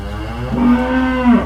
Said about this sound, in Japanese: なんか牛さんいますね。 なんか見える。 なんかいますね。